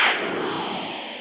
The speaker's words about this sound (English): The sound you just heard was a breaking news whoosh, or what we call a sting.